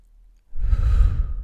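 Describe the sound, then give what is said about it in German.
A deep breath taken during a Wim Hof breathing exercise, a single loud, airy rush that begins abruptly after a quiet moment and holds steady to the end. “Der letzte Atemzug ein und aus. Und dann die Luft anhalten für 30 Sekunden.”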